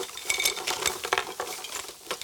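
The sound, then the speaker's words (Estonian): A pile of objects is tipped out of a backpack, producing a dense, continuous jumble of clinks, rattles and clattering knocks with no talk over it. “Ma kallan need kõik välja siia.”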